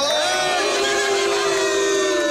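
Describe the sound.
A studio guest booing: one long, sustained voiced boo that sags slightly in pitch, heard over a busy, noisy background.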